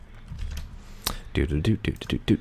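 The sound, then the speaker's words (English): Typing on a keyboard: a short, uneven burst of a few sharp clicks after a quiet opening with a faint low hum. “Listen to me type.”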